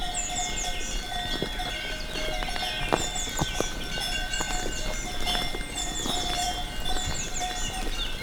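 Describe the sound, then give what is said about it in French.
Bells of Gascon cows clanking in a Pyrenean foothill valley, many overlapping metallic tinkles and clonks in an irregular rhythm as the herd moves, over a steady outdoor background. “Vous marchez accompagné par les sonailles. Des vaches gasconnes.”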